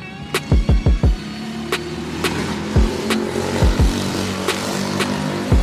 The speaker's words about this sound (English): they driving crazy out there. Y'all hear that?